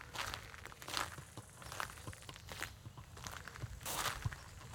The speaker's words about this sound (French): On marche dans le cimetière de la Coulonche.